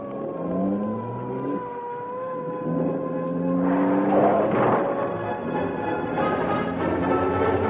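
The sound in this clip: A police car siren wails during a pursuit, its tone sweeping up and down repeatedly over a revving car engine that swells louder midway.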